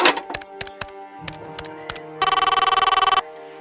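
A telephone rings in a single loud burst of rapid trilling pulses lasting about a second, preceded by a few sharp clicks.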